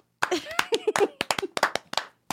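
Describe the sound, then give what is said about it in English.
Scattered clapping from a small group, many quick sharp claps in an uneven rhythm, mixed with voices talking and calling out over them. “Did you guys want to applaud or something?”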